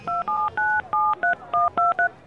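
Touch-tone telephone dialing as a number is keyed for a call from a bank: eight crisp dual-tone beeps in a quick, slightly uneven rhythm, heard alone.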